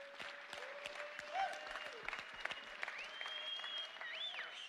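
Faint, scattered clapping from an audience comes in irregular claps. Steady sustained tones run underneath.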